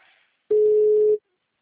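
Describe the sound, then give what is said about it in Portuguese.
A single telephone ringing tone as a recorded call is placed: one steady, loud, mid-pitched beep lasting under a second, heard alone after a brief faint noise at the start. “vou fazer uma ligação gravada.”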